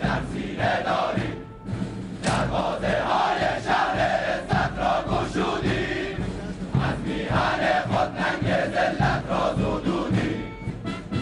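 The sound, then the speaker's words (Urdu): Massed voices of Iranian Revolutionary Guard commandos, marines and other units chant slogans in unison during a military parade march-past, a loud, dense, sustained roar of the crowd with no pauses. “Parade میں سپاہ پاسداران انقلاب اسلامی کے commandos, marine forces اور دیگر دستوں اور ڈویژنوں کے نمائندوں نے بھی ایک انوکھے انداز میں مارچ پاسٹ کیا اور ایران اور اس کے اسلامی انقلاب کے تحفظ کے سلسلے میں نعرے لگائے۔”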